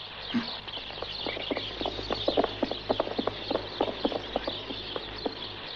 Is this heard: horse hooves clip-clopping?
yes